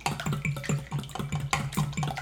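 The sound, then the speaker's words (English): A whisk beats egg yolks in a bowl, making steady, quick rhythmic strokes with a soft clinking scrape on each pass, evenly spaced throughout. “Just gonna whisk it till the yolks are broken up.”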